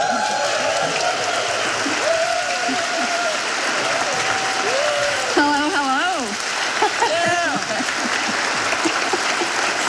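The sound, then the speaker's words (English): An audience breaks into loud, sustained applause to welcome a singer, a dense even patter of clapping throughout, with a voice briefly audible over the clapping partway through. “Vad kan passa bättre nu än en stor applåd för Donna Presley?”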